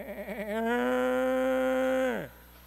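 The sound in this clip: A backyard goat lets out one loud bleat, starting with a quavering, wobbling cry that swells into a long sustained bray and then drops in pitch as it cuts off.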